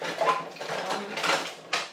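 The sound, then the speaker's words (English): Dishes clatter and rattle as they are loaded into a kitchen dishwasher, with irregular knocks, scrapes and clinks at a moderate level as the machine is packed as full as possible. “I'm just doing some kitchen stuff, i.e. loading up the dishwasher. I'm trying to fit as much in as I can”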